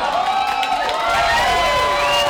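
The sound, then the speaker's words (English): Supporters cheer for a Senate candidate at a runoff-election watch party in Hobo's restaurant: a loud, steady crowd roar of overlapping shouts, whoops and high excited voices, sustained without a break. “When they got the news they were looking for, supporters cheered Norman as he came down the steps from a private watch party with his family.”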